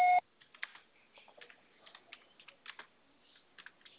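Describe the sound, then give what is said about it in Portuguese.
A loud voicemail recording tone sounds at the very start and cuts off after a fraction of a second. Many soft, irregular clicks and taps like typing follow. “Sua chamada está sendo encaminhada para a caixa postal e estará sujeita à cobrança após o sinal.”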